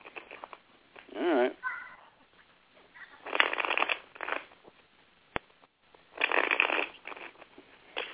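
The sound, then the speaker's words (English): A psychic shuffling a deck of playing cards, a few rapid papery riffling bursts separated by pauses, with people talking around them. “You got money cards jumping out of my hand.”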